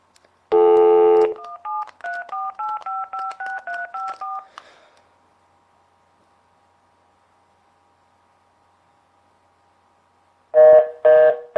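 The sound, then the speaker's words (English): Telephone keypad tones from dialing a number: a long opening tone, then a quick run of short beeps at shifting pitches, a long silence with a faint hum, and a few more tone bursts at the end. “So I'm going to dial my number, and we'll show you the voicemail here.”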